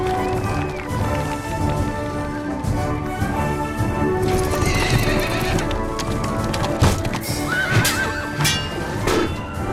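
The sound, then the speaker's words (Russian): Horses gallop and neigh at a knights' jousting tournament. A loud, dense, continuous stream of clip-clopping hoofbeats runs throughout, with whinnies cutting through it. “Рыцари в доспехах сражаются в лошадях. Они скачут друг на друга и сбивают копьем.”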